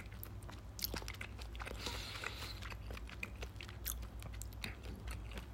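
Chewing of a juicy sausage with a taut, snappy skin, heard as faint, moist crunching and smacking clicks that repeat irregularly over a low, steady hum. No one speaks.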